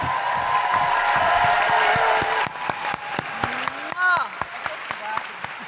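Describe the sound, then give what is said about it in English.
Applause and cheering from a talk-show audience greeting an author guest, a dense roar of clapping that thins into scattered claps with a few rising whoops near the end. “Please put your hands together and make incredible woohooing noises for Shauna Emmerhan!”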